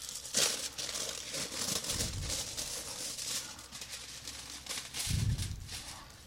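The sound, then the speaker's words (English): Foil crinkles and rustles as a foil-wrapped wine bottle is unwrapped, a soft, continuous crumpling with a few louder crackling bursts. “I like wrapping in foil. You've probably noticed that now. I'm not the paper bag kind of guy.”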